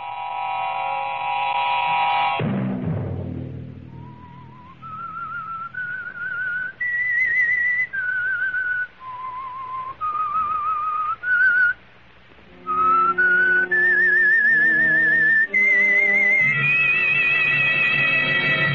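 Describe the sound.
Whistling by a mysterious narrator as the theme of a radio drama: a short, loud chord opens, then a slow whistled melody of single held notes, with a low accompaniment joining underneath in the last part.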